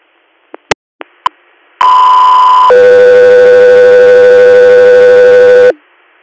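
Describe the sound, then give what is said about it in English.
Radio dispatch alert tones paging an air medical crew in Susquehanna County, Pennsylvania: four short clicks, then a loud steady tone for about a second, followed by a lower tone held for about three seconds. “stand by for tones.”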